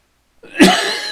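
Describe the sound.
A single abrupt cough from a man with a dry throat, short and loud, heard alone.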